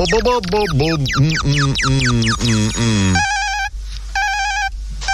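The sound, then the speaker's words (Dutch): New bells ring for a radio number game. A melodic vocal passage gives way to bright, buzzy electronic ringing in about three short bursts separated by brief gaps. “Eerste getalletje gaan we even doen. Met de nieuwe bellen.”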